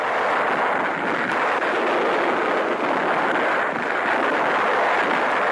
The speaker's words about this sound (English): Navy shells drop in the background.